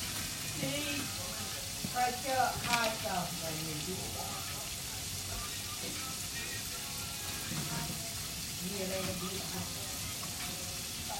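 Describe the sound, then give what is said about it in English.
French fries frying in a pan give a steady, low crackling sizzle that runs throughout, with a voice speaking briefly over it early on. “I'm gonna cook these fries for a few more minutes.”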